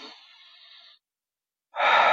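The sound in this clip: A deep breath drawn in through the nose and released through the mouth: a softer, thinner inhale is followed by a short silence, then a loud, full, rushing exhale.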